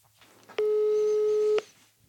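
A telephone ringing tone sounds once while a call to a friend is placed: a single steady, clean electronic note lasting about a second, starting and stopping abruptly against near silence.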